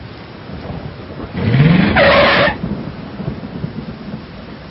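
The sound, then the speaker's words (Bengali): A CNG auto-rickshaw driving through light rain at night: a brief engine surge with a rising whine rises out of a steady rain-like hiss midway through, then fades back into the hiss. “সে একটা CNG নিয়ে মর্গের দিকে এগোল”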